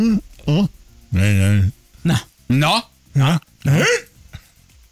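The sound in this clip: People imitate a barking dog with their voices, producing several separate yelping barks with pauses between them, one drawn out longer like a howl, loud and harmonic with no other sound underneath.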